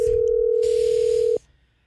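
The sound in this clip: A telephone ringback tone sounds for an unanswered call: one long, steady mid-pitched tone that holds for over a second, then cuts off abruptly, leaving a faint low hum.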